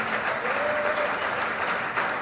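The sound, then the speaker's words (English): An audience at a live church recording applauds to welcome a guest, with steady, even clapping through the whole short stretch. “Let's give a warm Mounties welcome to Dan.”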